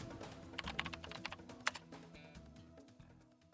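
Typing on a computer keyboard in a hospital emergency department while writing an observation record: many quick, light key clicks in an uneven run, softening toward the end, fairly faint, with no voices.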